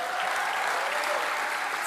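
An audience applauds at a church's tenth anniversary celebration, producing dense, even clapping that holds at a steady level throughout.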